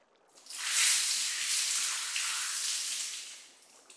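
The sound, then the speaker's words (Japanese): Water rinsing over a person's head during a hair wash at a hot spring: a steady, bright splashing hiss that swells, holds for about three seconds, then fades. No voices. “はい、では一度頭から流しますね。じっとしててくださいよ。”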